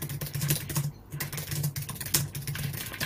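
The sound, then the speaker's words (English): Computer keyboard typing as something is written down during a lecture, a quiet, continuous patter of irregular keystrokes with brief pauses between bursts. “let me write this down”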